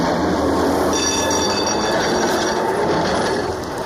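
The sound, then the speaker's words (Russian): A tram's doors close and it pulls away with a loud, steady mechanical rumble. Thin, high metallic whines and squeals rise over the rumble partway through and persist before it eases slightly at the end. “двери трамвая закрываются, трамвай уезжает.”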